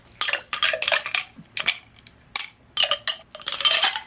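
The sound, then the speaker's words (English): Ice goes into tall glasses of Planter's Punch and gets stirred with a bar spoon. Bright clinks and rattles come in a series of short, uneven bursts with brief quiet gaps between them. No voices. “Now let's get some ice in these glasses and give them a stir. I'm going to fill them up about halfway.”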